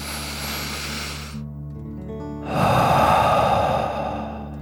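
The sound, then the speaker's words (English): A deep breath drawn in, then blown out through the mouth as in a calming dragon-breath exercise. A soft inhale and a pause lead into a louder, rushing, breathy exhale, with gentle steady music underneath. “Deep breath in and out.”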